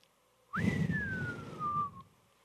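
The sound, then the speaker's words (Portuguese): A person whistles one clear, sustained note that slides quickly upward, then glides slowly downward for about a second and a half before stopping. The tone is steady and distinct over faint low background noise. “E alguns até emitem o som do assovio.”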